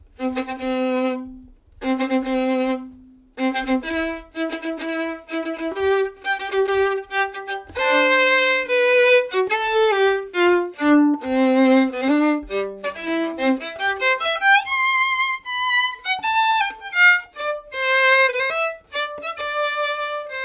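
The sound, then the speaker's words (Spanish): A famous orchestral wedding march, opening with short, loud repeated fanfare notes before a bright, full melody carries on steadily at full volume with no talking. “esta es la famosísima marcha nupcial de Mendelssohn”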